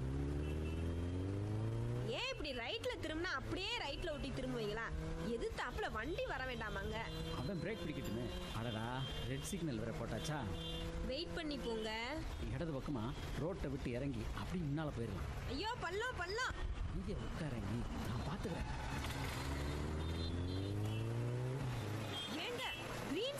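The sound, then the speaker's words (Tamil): A motorbike revs and rides off, its engine pitch rising and falling repeatedly under steady conversation between people. “நீ ஏறி உட்காரு, இந்த வண்டி எப்படி போகுதுன்னு மட்டும் பாரு. முதல்ல ஹெல்மெட்டை போட்டு லாக் பண்ணுங்க.”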